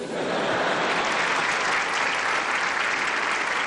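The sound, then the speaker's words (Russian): Applause from a crowd, dense and steady clapping that starts almost at once and holds at an even level to the end, with no voices standing out. “Аплодисменты, знак согласия.”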